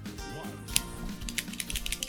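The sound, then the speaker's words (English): A cigar cutter snips the cap off a Herrera Esteli Miami Robusto Grande cigar: one sharp, crisp click, followed by several lighter clicks. The sounds are quiet and nobody talks. “perfect cut, as always. Love this cutter. Works like a charm.”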